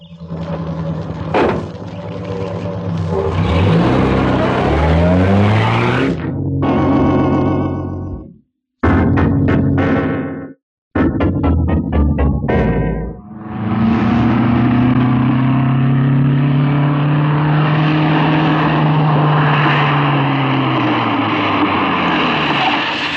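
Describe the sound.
Car engine starting and driving off: a loud engine with a stretch of rapid pulsing bursts broken by brief silences, then a sustained, strong engine roar that holds to the end.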